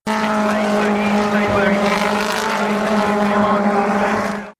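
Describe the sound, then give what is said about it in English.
Touring cars race around a circuit during a British Touring Car Championship event, their engines a loud, unbroken roar with layered droning tones that continues without a break and then cuts off abruptly at the end. “I've also just come back from the British Touring Car Championship at Alton Park, which sounds like this.”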